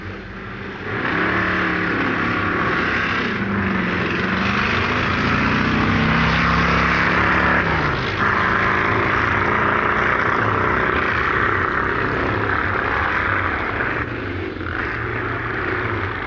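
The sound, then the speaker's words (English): A restored late-1940s Allard hill climb racing car engine roars loudly and steadily throughout, a rough, throbbing drone with slight swells in intensity and no voices. “Now in the hands of its new owner, Dave Hooper, the restored Stair Allard sounds no more noisy today as it did on the British hills back in the late 40s.”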